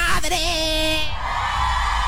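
Women shouting loudly: a sustained high, whooping yell in the first second, then a broader, steady noisy din that carries on to the end.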